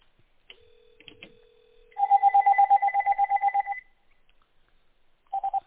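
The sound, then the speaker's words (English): A landline telephone number is being dialed: a faint steady tone gives way to a quick, even run of many bright beeps, then a short pair of beeps near the end, with no talking. “Let me dial your landline number once and see.”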